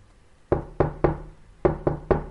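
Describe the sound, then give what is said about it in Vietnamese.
Knocking on a door, likely a bathroom door, comes as six sharp raps in two quick groups of three, each hit crisp and loud against a quiet background, with no voices. “Tiếng gõ cửa vang lên mấy lần.”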